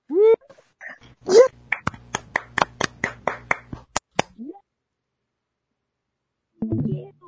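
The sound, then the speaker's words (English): Hand claps after a quiz-game win, a quick, uneven run of around ten sharp claps, with brief vocal squeals before them and voices returning after a pause. “Claps all around.”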